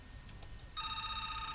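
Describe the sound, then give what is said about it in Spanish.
A telephone rings partway through, a steady electronic trill of stacked bright tones that holds unbroken to the end over low background noise. “Antes de irnos a canción, voy a atender esta llamada. Vamos a atender la llamada, la poderosa.”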